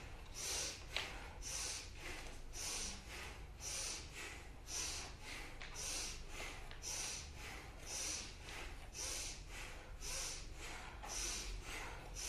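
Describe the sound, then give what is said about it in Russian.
Forceful bhastrika yoga breathing during a kriya session: many quick, sharp breaths in a steady rhythm, each a short hissing burst through the nose, fairly faint and with no talk. “Здесь грудная клетка у нас бахвастрика идет. А вдох хороший у нас.”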